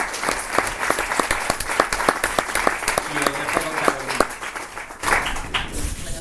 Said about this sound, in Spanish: yo quería pediros un aplauso para todos